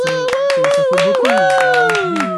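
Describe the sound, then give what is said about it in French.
An audience claps during an ovation for a departing colleague, with loud voices calling and talking over the rapid, uneven clapping throughout. “ce que je vous propose, c'est de faire une standing ovation pour Abou et ouais, tout ce qu'il a apporté.”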